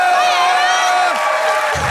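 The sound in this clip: Audience cheering and whooping for a guest welcomed onstage at a live show, a loud, continuous crowd roar with shouts running through the whole moment.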